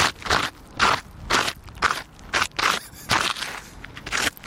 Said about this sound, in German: da finde ich ein Video von einem Fuß, der im Kies schabt.